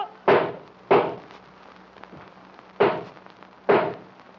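Four sharp gunshots from two guns, loud, alone and unevenly spaced: two bangs close together, a pause of nearly two seconds, then two more.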